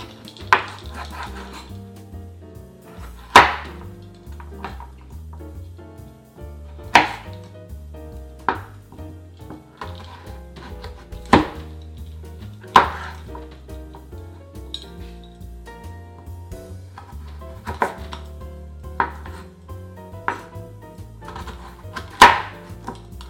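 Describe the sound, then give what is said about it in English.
Knife slicing a peeled, washed carrot into thin slices for a sushi roll: many sharp, crisp cuts at irregular intervals, each a distinct snap against the board, with no voices. “I already peeled and washed the carrot. And you just want to get thin slices.”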